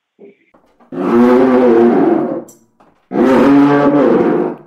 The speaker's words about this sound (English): And what they would do is they would put violin rosin on the string, and when you pull the leather across the string, you'd get the roar of a lion.